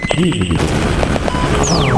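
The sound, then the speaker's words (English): Bombs explode in a video game: a loud, chaotic barrage of layered blasts and crashes, with a high whistling tone sliding steeply downward near the end. “Annoying bombs. Also. Annoying bombs. Ooh. I'm gonna get hit. So I basically spawned a whole bunch of bombs.”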